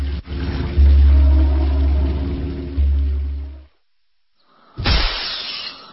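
Something breaking: a sudden loud crash with a brief rattling tail. Before it come a low, steady droning hum and a moment of silence.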